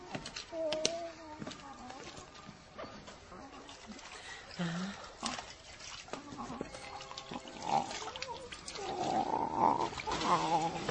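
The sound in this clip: Running water as a doctor washes his hands, a soft wet rush that swells louder toward the end, partly under voices.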